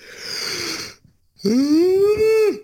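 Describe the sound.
A person yawns with a breathy intake, a short pause, then a long voiced groan whose pitch climbs slightly and drops off sharply at the end.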